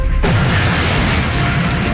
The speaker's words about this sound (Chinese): 一团烈焰炸开，无数金属碎片伴随着爆炸的气浪覆盖了他们，叫声被巨大的爆炸声淹没。